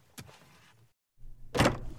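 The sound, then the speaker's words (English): Someone at the door announced by door noises: a sharp thump, a short silence, then a louder, fuller bang, with no voices. “Hang on, there's someone at the door.”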